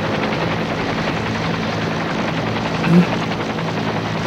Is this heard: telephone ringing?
no